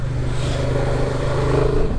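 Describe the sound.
Steady engine drone of a motorcycle ridden along narrow country roads, a continuous low humming tone that holds fairly even and loud throughout.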